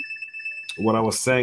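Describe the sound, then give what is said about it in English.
Several phones ring at once with different ringtones, a steady high electronic tone joined by louder melodic rings. “yeah, let the phones blow up today. So here we go. All the phones, different rings.”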